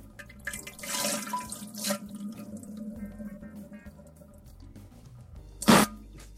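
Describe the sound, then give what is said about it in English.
Liquid diarrhea splashes into a toilet in a few wet, spattering bursts over a quieter gurgling trickle. The loudest, sharpest splash comes near the end. “That is not urine. That is poop coming out of my ass. Nonsense. Listen to this. Liquid.”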